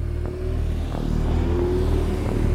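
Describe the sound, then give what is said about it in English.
A hotwired Toyota car's engine revs as the clutch is popped and it pulls away. The loud, steady drone carries a few rattling bumps and no voices. “he hotwired a Toyota, popped the clutch, and went hunting.”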